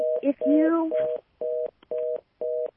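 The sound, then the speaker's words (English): A telephone line tone sounds steadily at first with a voice over it, then breaks into four short, evenly spaced beeps separated by silence. “I heard a dial tone.”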